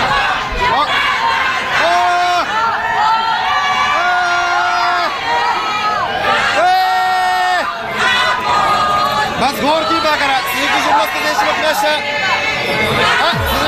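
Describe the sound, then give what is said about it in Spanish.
A crowd in Monterrey welcomes Japan's football team with a dense, loud roar of cheering, shouting and chatter. Several long, sustained shouts rise out of the continuous din. “Señores, así recibieron a Japón el día de ayer en Monterrey. Escuchemos.”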